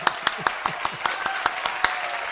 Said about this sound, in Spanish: Y el aplauso para todas las patojitas. Aplauso, aplauso, aplauso.